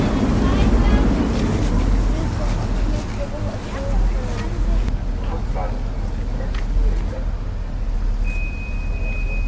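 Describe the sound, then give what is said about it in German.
Continuous low rumble and rushing wind and water noise from a harbor ferry travelling along the Elbe river, steady and loud throughout, with a thin high tone near the end. “Wir sind gerade auf die Fähre gegangen. Jetzt fahren wir auf den Elbe lang und an den Landungsbrücken vorbei.”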